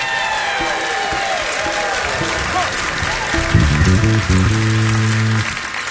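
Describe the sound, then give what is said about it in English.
Audience applause and cheering welcome a banjo player from Bainbridge Island, Washington, onto the stage. The clapping is steady and dense, with a few sustained instrument notes coming in near the end. “And from Bainbridge Island, Washington, I want you to give it up. Make him welcome.”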